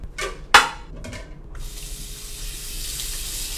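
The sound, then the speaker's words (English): Tap water running while coriander is washed under it: a few light knocks and splashes, then a steady, even hiss of flowing water that continues to the end, with no talk. “I will chop up some coriander and wash it off that way.”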